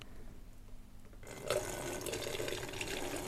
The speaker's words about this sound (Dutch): En nu ga ik de afgieten. Nu ga ik de afgieten.